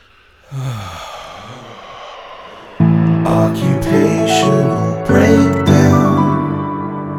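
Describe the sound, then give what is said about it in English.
A deep inhale: a long, breathy draw of air lasting around two seconds, after which a louder passage begins. “I might put a little effect on my deep inhale right before I started.”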